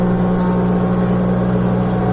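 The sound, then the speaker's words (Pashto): Steady drone of woodworking machines that cut and plane wood in a carpentry workshop making tables and chairs: a constant, mid-pitched motor hum with strong harmonics, loud and unbroken, with no distinct separate cuts. “څوک په ماشینونو لرګي رکوي، څوک په همدی ماشینونو لوړی ژوري هواروي”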